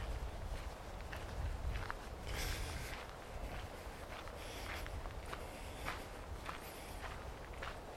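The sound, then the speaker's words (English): Footsteps of a person out on a walk, soft and regular, with a steady background noise and no talking. “And I shall carry on with my walk.”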